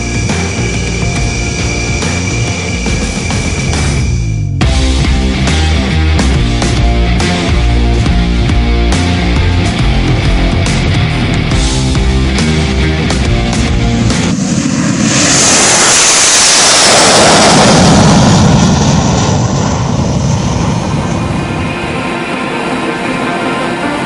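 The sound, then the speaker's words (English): Rafale multi-role fighter jets of the Indian Air Force taxi out of their shelters toward the runway, producing a continuous loud engine roar with a broad rushing hiss that swells and surges toward the latter part. “The jets taxi out of their shelters and head to the runway.”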